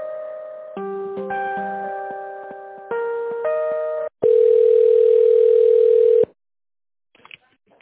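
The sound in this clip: Telephone tones play while a call is transferred to a company's tender department: a few sustained electronic tones shifting in pitch, then one long, steady, loud tone lasting about two seconds, followed by near silence.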